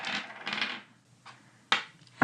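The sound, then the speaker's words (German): Dice being shaken and rolled: a short rattling shake at the start, then a few sharp clicking knocks as they land, all fairly faint with quiet gaps between. “Ich schüttel jetzt die Würfel und dann gucken wir mal, was bei rumkommt.”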